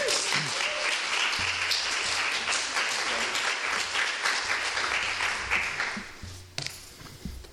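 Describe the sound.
Audience applause welcoming a poet at a reading series, dense and steady clapping that holds at an even level before thinning and fading away near the end.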